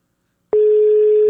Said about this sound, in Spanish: A ver, deme un segundo. Ahí le estoy marcando a Corina.